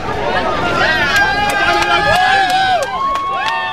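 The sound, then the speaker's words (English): A race finish line crowd in Bethlehem's Manger Square fills the scene with many overlapping voices, calls and shouts in a steady, lively babble. “Well, here at the crowded finish line in Bethlehem's Manger Square, and we haven't seen this many visitors here in Bethlehem, a town so dependent on tourism, for a long time.”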